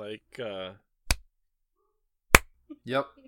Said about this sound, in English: I had to do some sarcastic claps for that one.